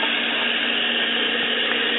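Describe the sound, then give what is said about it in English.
Water pours from a tap into a pot being filled for a coffee maker, an even, unbroken rushing hiss that holds steady and fairly loud throughout. “I'm running water in the pot here so I can pour it in the coffee maker”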